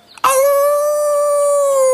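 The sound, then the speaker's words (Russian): A grey wolf gives one long, sustained howl after a brief faint sound. The howl is loud and steady in tone, easing slightly lower near the end. “Принюхался серый волк и завыл.”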